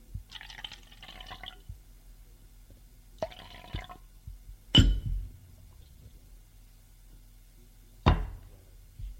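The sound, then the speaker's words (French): Red wine is poured from a bottle into a glass in two short, soft gurgling pours, followed by two sharper taps, all fairly faint against near silence. “Fume deux bouffées et se sert un verre de vin rouge. La bouteille est sur la table.”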